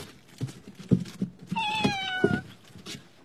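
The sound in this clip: A kitten gives a single drawn-out meow that falls gently in pitch. It stands out clearly over a few soft low thumps.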